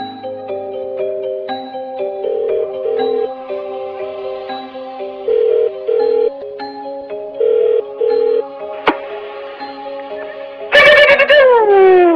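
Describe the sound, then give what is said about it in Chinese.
A telephone redials and rings: a quick string of electronic dialing tones at shifting pitches, then three short ring bursts and a click, followed by a louder, brighter electronic tone near the end. “我还知道电话是有一个掣叫 redial 的。”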